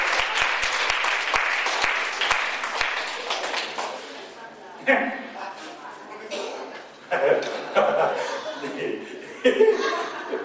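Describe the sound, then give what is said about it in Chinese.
A Chinese-speaking church audience claps in encouragement, with brisk, scattered applause and a few sharp taps in the opening seconds. The clapping then gives way to talk mixed with chuckles and bursts of laughter. “啊，拍手鼓励一下，拍手鼓励一下。”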